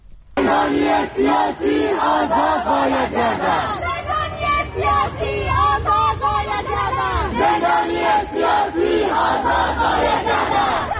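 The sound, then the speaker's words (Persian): Loud chanting and shouting from a crowd of students protesting at the literature faculty of Allameh University, many voices massed together in continuous, dense waves that scarcely pause for the whole stretch. “در چند دانشکده دانشگاه علامه هم تجمعاتی رخ داد، از جمله صدای یکی از اعتراض‌های دانشجویان در این دانشکده رو می‌شنویم.”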